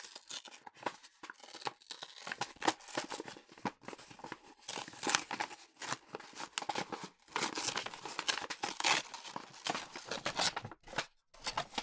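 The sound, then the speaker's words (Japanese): Packaging crinkles and tears as a cardboard box is opened, with irregular, faint rustling, crumpling and ripping bursts that continue throughout. “もう一つの箱が、はい、オープン。”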